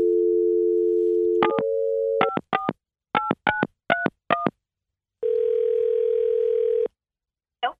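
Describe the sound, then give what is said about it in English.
A phone call being placed: a steady dial tone, then a quick run of keypad touch-tone beeps, followed by one long ringing tone and then silence. “Okay, let's dial it. Let's call her.”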